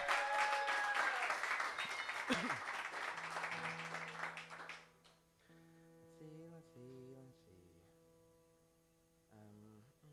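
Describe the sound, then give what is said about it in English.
Audience applause at a live-streamed event, a dense burst of clapping that lasts about five seconds and then dies away, leaving a low electrical hum and a few faint tonal sounds; fairly quiet overall. “give him a big round of applause”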